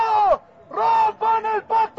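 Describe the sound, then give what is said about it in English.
Angry chanting from a protest crowd near the presidential palace, a few rhythmic shouted syllable bursts with short gaps between them, loud and voiced in unison. “But as the crowd gets closer to the presidential palace, the chants grow angry.”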